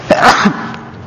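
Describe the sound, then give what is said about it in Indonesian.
A single sharp sneeze from a man during an online religious lesson, a quick loud burst that fades into quiet. “Teman-teman enggak perlu lari ya. Saya bersin karena jarak kita online kok.”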